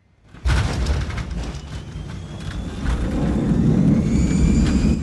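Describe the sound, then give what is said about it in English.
A passenger plane lands in a tropical setting: a loud, sustained engine roar starts abruptly and swells, its deep rumble growing heavier toward the end under a faint high whine. “The plane lands in a tropical setting.”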